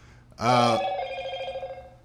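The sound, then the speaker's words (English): A phone rings once with a bright, loud, tonal ring that stops abruptly, and its fainter ringing tail decays over the next second. “Phone's off in the theater, sir. I apologize. Phone's going crazy right now.”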